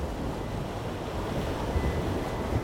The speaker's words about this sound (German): Jenseits der Meerenge liegt der in der sanften Junibrise angenehm wogende Atlantik.